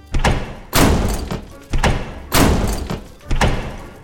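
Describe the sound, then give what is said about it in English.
Heavy slam sound effects land as a series of booming thuds in a fairly regular rhythm, each striking hard and fading in a rumbling tail before the next. “Speaking of hearing, I do love that slam sound so.”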